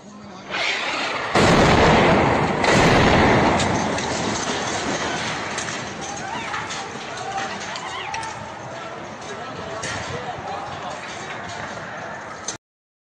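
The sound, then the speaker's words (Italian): An Israeli bombardment in Rafah in the Gaza Strip: a loud, broad booming burst early on, followed by a continuous rough roar and rumble that stays heavy until it cuts off abruptly. “Questo è un bombardamento israeliano a Rafa, prego.”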